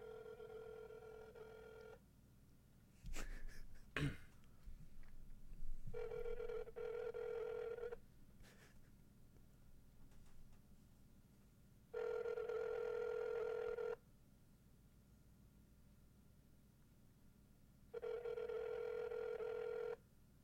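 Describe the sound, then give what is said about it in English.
Ringback tone of an outgoing phone call held close to the microphone: four steady two-second tones spaced by equal silent gaps, with a burst of handling noise early between the first two rings. “We're gonna attempt a call here. Put it up near the mic.”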